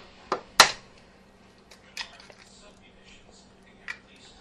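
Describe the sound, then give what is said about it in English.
An egg being cracked, with two sharp cracks in quick succession near the start, then a few faint clicks and small knocks over a quiet background. “I have toast merrily toasting in my toaster, and I'm going to crack an egg.”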